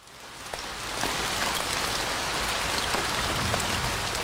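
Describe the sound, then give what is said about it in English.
Steady rain falls in Scotland, a dense, even hiss of countless raindrops on surfaces that swells slightly after the first second and then holds level, with no voices. “I don't need to explain what it is, do I? Of course, it's the sound of rain.”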